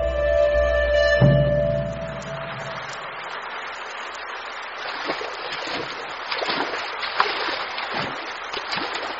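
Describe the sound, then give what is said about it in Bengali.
Heavy rain falls on a street as a dense, steady hiss of water with scattered louder splashes. It comes in after a few seconds of low tonal music that fades away. “সে প্রবল বৃষ্টিতে রাস্তায় দাঁড়িয়ে কাক ভেজা হচ্ছে।”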